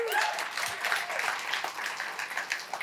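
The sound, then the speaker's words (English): A church audience applauds as a youth pastor is invited onto the platform, with a thick wash of many hands clapping at fairly constant strength. “he does not deserve your applause, but whatever.”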